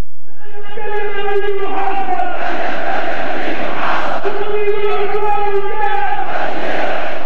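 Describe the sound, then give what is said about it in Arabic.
A huge crowd at a mass rally in Yemen chants loudly with anger and defiance, sustained massed voices rising and falling in rhythmic waves throughout. “تحشدت الجماهير بالغضب والتحدي، الرايات مشرعة، الهتافات مدوية”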